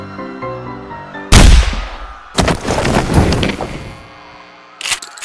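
A rifle gunshot: one sharp, loud blast cuts through soft tonal music and decays in a ringing tail, followed by further noisy bursts.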